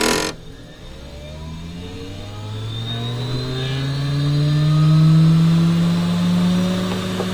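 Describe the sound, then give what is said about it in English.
A laboratory centrifuge spins DNA samples in a genetics lab, giving a smooth motor whine with layered tonal harmonics that slowly climb in pitch and swell in loudness, then ease off slightly near the end. “At Rick Kittle's University of Chicago lab, a centrifuge machine spins DNA, one step in the genetic replication process.”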